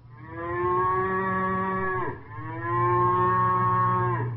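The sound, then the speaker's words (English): Ox mooing, a sound effect standing for Paul Bunyan's Blue Ox Babe: two long, loud, low moos, one right after the other, with no other sounds. “Well, that could be Paul Bunyan's Blue Ox Babe. Well, that's right.”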